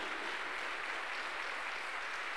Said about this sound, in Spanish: Aplaudimos para el Señor Jesús. Aplauda, aplauda para Cristo.